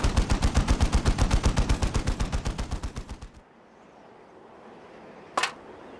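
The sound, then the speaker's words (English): Bolter gunfire pours in a rapid barrage against an automated turret system: many evenly spaced heavy shots in a fast, steady rhythm that gradually weakens and stops, then quiet and a single sharp crack. “Tycho unleashed another barrage of bolter fire against the automated turret system”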